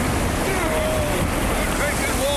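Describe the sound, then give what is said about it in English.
Rough sea surf with wind churns around a small rowing boat overloaded with five men and cargo as it heads into the breakers; a loud, continuous roaring rush of water and wind runs throughout with no distinct single crash. “We'll be sunk to the bottom after one wave. And here they come.”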